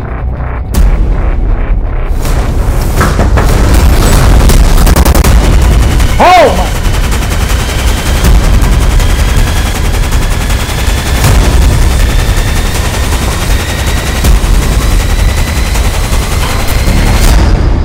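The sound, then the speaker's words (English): Gunfire: many sharp shots crowd together at the start, with isolated cracks later over a loud, continuous, rumbling din. “Stop shooting.”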